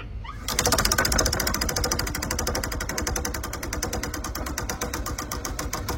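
A spinning prize wheel sound effect played while a real wheel turns in a studio: a rapid, steady train of many sharp clicks that starts abruptly and runs without pause for over five seconds.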